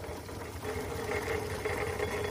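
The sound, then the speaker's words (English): A coal-fired Foden steam wagon, a scaled-down model, chugs around a museum of technology on the site of an old pumping station, giving a faint, steady mechanical rumble with rapid rhythmic chugging and no talk. “This week, Dave and I are aboard a Foden steam wagon chugging around the Museum of Technology here in Cambridge.”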